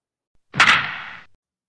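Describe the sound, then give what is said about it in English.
Crack of a baseball bat hitting a ball: one sharp, bright strike with a short ringing tail that fades within about a second, heard alone. “Okay, and if you hear that sound, the crack of the bat, you are in tune for some extra credit.”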